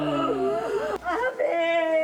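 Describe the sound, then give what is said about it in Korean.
Melodic ritual wailing for the dead: a voice crying in sustained, sliding tones with rich harmonics, its pitch bending and wavering, with a brief break near the middle. “이 울음 소리에 선율이 들어가 있다는 것이 제 인상 깊었던 것 같아요.”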